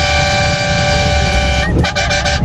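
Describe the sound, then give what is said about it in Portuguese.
A car horn blares in one loud, steady, sustained note amid drivers honking in Brazil, then breaks off into a few short, choppy toots. “Ó, isso é buzinada, meu filho. Meus caras do Brasil inteiro buzinando na Band”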